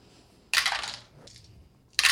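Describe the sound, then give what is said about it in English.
Many dice clatter as they are rolled: a loud rattling burst, then a softer brief rattle, and another sharp clattering burst at the end. “That's so many dice.”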